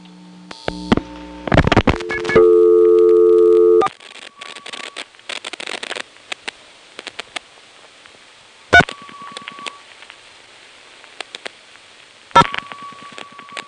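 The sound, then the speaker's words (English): Telephone line sounds accompany dialing of the vacant office code 430: clicks, a sustained steady tone, then scattered pulses and two short tone bursts separated by near silence. “You'll see here when I dial 430 that's enough to get it to drop out after the third digit and let us hear the recording.”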